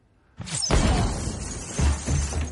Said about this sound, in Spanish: Los cristales de las ventanas se rompen. Los disparos rompen varios objetos de la casa.